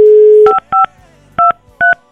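Telephone keypad tones while redialing a call after it went to voicemail: a steady dial tone is followed by four short, dual-pitched key beeps with uneven gaps between them.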